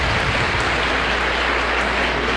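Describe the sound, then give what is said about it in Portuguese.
Applause from an audience during a parish novena celebration for the feast of Senhora Santana: a dense, steady wash of clapping that runs unbroken throughout, with no single voice standing out. “Quem está em casa merece uma calorosa salva de palmas. Calorosa!”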